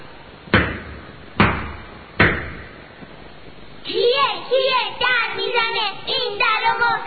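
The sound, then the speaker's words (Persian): Fists pound three times on the door of a goat's house in a children's tale, each heavy thud loud and sharp with a short booming decay, evenly spaced, followed by a voice speaking. “یک ساعتی که بگذشت به خونه بزو برگشت، کفری و زار و پکر، مشتاشو کوبید به در.”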